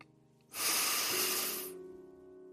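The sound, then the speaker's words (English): A single deep breath, one long airy rush of air that swells suddenly and holds steady for over a second before cutting off, in an otherwise quiet setting. “Let's take one more deep breath in.”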